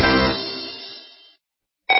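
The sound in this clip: A telephone rings with a bright, buzzy tone that slowly fades out, then a second ring starts sharply after a short pause.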